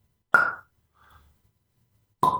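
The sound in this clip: A beer can is opened with a pop: two loud, short bursts with a quick fizzy tail, separated by a long pause with a faint small sound between them.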